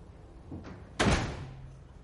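A house door opens and then closes slowly. A soft first sound is followed by a louder, fuller closing thud with a short tail, and no voices are heard.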